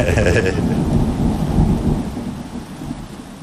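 Thunder rumbles through steady rain during a summer downpour, a loud, continuous low roar with a hiss of rainfall on top that eases slightly after the first two seconds.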